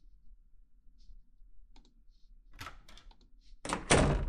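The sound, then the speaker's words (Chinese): A door is opened with a few soft clicks and a dull thunk from the latch and handle, followed by a sudden loud burst of rushing noise at the end. “那来吧，开门。”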